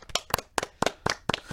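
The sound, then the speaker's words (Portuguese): Hand clapping as a guest is applauded: six crisp, evenly spaced claps in a steady rhythm, with no talking. “Palmas para o Rod. O homem, palmas.”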